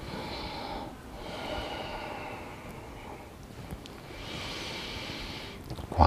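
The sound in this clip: Soft breathing in and out during an exercise routine: a few slow, airy breaths rise and fall in a steady rhythm. The breathing stays faint throughout, with no talking.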